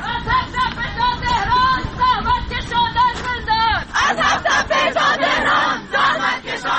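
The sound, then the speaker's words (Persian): A crowd of students chants a protest slogan in unison, the loud, rhythmic phrases repeated over and over with strong, ringing voices. “شعار اونها رو میشنویم. کلاس دست خالیه، دانشجو زندانیه. کلاس دست خالیه، دانشجو زندانیه.”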